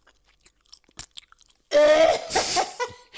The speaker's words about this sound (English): she enjoyed the noise of me eating in the headphones. So I'm just going to give. That's called. Just going to give this to her.